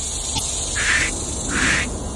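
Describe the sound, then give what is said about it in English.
Cicadas singing in trees on a hot summer day: a steady high-pitched buzzing drone with two louder swelling pulses rising out of it. “It is what summer sounds like. For me, you know, I'm sure, no doubt, it's probably annoying to some folks, but to me, I can hear summer by hearing cicadas.”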